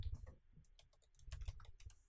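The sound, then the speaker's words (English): Quiet typing on a computer keyboard: many soft key clicks tapped in a quick, uneven rhythm, with no voices. “I typed in magic and it took me to the Madoka Magic.”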